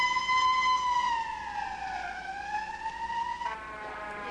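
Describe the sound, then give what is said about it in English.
Wailing siren of a white stretch ambulance passing a car on a flat country road, a loud steady tone sliding slowly down in pitch, climbing back up, then shifting abruptly near the end. “A wide view of the white stretch ambulance as it passes a car on a flat country road.”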